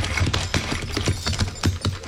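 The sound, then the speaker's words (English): Hoofbeats of a horse team pulling a wagon down a road: many steady, slightly uneven clops, each a short low knock, with no voices over them. “Hey, wait. Listen. That's a team and wagon. Yeah, it's heading right down the road where the horses are hidden.”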